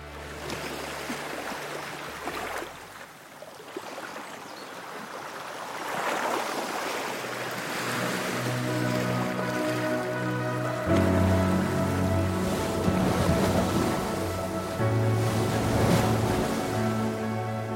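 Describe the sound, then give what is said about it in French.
Sea waves wash and surge around a large racing trimaran on the Caribbean sea during an ocean sailing race, a steady, loud rushing of water that swells and builds over most of the long stretch. “Sur une mer des Antilles irisée, qui miroite sous un soleil jouant à cache-cache avec les nuages, file un grand trimaran.”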